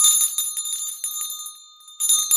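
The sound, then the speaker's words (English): A studio bell rings to welcome a first-time caller on a call-in talk show. Its bright, high tones shimmer through several strikes, fade midway, then sound loudly again near the end. No voices are heard. “first, that is the bell to welcome John Scarborough for the first time.”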